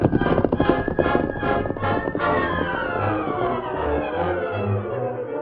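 Hooves of the Lone Ranger's horse Silver galloping off, a quick, rhythmic run of clip-clops that is strongest in the first two seconds before giving way to other sound.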